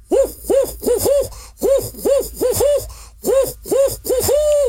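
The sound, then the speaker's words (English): A human voice imitates a barred owl hooting: many short, arched hoots in three quick bursts, the last note drawn out a little longer. “you might hear, like the barred owl for that you've probably heard before, that makes the hooting sound, kind of goes like this”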